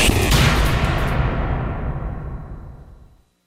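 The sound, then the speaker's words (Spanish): A bat cracks against a baseball, a loud, sharp hit whose ringing tail fades slowly over about three seconds. “Pelotada la bola. Se escucha el batazo”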